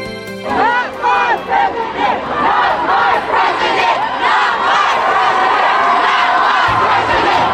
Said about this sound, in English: That's a sound, a common sound now. Almost nightly we are seeing demonstrations against the election of Donald Trump, and that's the anthem, Not My President.